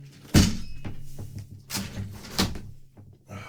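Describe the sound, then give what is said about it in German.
A window being closed, heard as a few dull thumps and knocks, the first the loudest, over a low steady hum. “das Fenster zumachen, über dem Haus fliegt da irgendwas und das dröhnt dann.”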